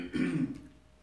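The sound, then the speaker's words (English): A single throat clearing during a sermon: one short, rough, low burst lasting under half a second, then fading into quiet. “I'm sorry, just trying to keep my throat clear.”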